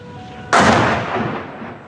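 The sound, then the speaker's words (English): A Taliban rocket explodes in a busy street in Kabul's embassy district. A single sudden, loud blast is followed by a rumbling roar that slowly fades over the next second and a half. “In the heart of Kabul's embassy district, a Taliban rocket lands in one of the city's busiest streets.”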